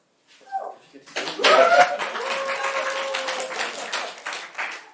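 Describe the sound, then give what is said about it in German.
Applause from an audience at the opening of a technical conference talk. A few voices are heard briefly, then dense, sustained clapping continues to the end. “Die halbe Firma ist hier und applaudiert.”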